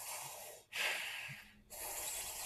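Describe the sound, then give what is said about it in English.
Breathing in the Ayurvedic cooling breath technique, heard as long airy hissing breaths split by two short pauses. The middle breath is louder and sharper than the others, and no voices are heard. “to cool the breath, there's a cooling breath that goes,”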